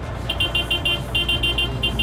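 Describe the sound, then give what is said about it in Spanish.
A car horn honks in a rapid, evenly spaced series of many short, high beeps, loud over a low engine rumble. “Está pitando, óigala.”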